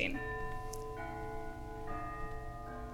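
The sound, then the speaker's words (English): Church bells chime faintly to close a staged scene: sustained, ringing, overlapping tones that shift to new pitches a few times in steady succession. “And then the bells chime and the scene ends.”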